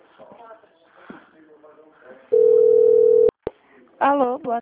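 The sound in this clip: A steady single-pitched telephone tone sounds during a call transfer and lasts about one second. People talk before it, a couple of sharp clicks follow, and then a voice answers.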